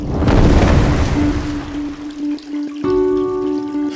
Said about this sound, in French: je te quitte parce que mon bain coule